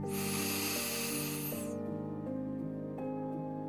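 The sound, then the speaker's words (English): A deep breath in, a soft broad hiss of inhaling lasting under two seconds, then fading over gentle sustained musical tones that shift pitch a few times. “And another deep breath in.”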